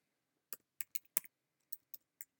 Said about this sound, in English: Bear with me. I got to type it in.